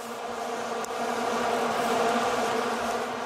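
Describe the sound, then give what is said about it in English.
Plastic vuvuzela horns drone together at a football match, a loud, continuous buzzing hum at one steady pitch that never breaks, with no talk over it. “Vuvuzelas, the plastic horns whose noise has been driving people mad. Just that continuous hum, which actually drowned out all of the meaningful noises.”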